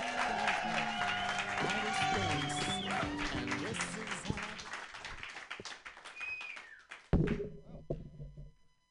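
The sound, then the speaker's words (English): Audience applause for a comedian at a comedy show: a dense, steady wash of crowd clapping that gradually thins toward the end, then a single brief thump. “Clap your hands wildly for Melina Best.”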